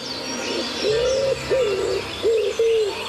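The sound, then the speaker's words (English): A human voice imitates a wood pigeon's dawn-chorus cooing with four smooth, hollow hooting notes: two longer ones, then two shorter ones in quick succession. “my Dawn Chorus bird impression is the wood pigeon”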